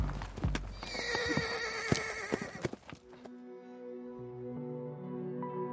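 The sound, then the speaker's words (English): A horse gallops at full speed, its hooves pounding, while a loud, high whinny rings out in the first half. The hoofbeats and neighing are followed by steadier, quieter sound. “Branches whipped at his face as his horse galloped at full speed to their rendezvous location.”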